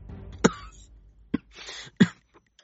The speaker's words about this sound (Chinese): 突然偏头咳了几声，闷闷的，但整个人都在发抖，像是在努力把咳嗽抑制在胸腔内